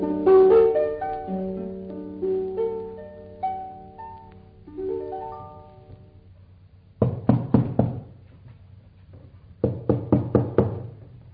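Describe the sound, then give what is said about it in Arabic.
Knocking on a door comes in two quick bursts of several sharp raps each, separated by a short pause and preceded by a fading stretch of melodic tones. “عجايب، هو مفيش هنا حد؟ كل ما خبط على باب محدش يرد.”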